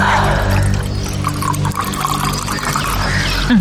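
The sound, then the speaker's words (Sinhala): Water poured into a glass, a steady gurgling, splashing stream that runs for the whole stretch, loud and without speech. “මට වතුර එකක් දෙනවද? ඔය stool එක උඩ තියෙන්නේ. ඉන්න අඳා දෙන්න.”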